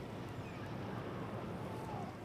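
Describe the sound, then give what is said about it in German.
A gentle wind blows across a ship's deck as a soft, steady rush of air, faint and even throughout. “Die Aussicht ist wirklich wunderbar. Die Sonne scheint, ein sanfter Wind weht, es ist warm.”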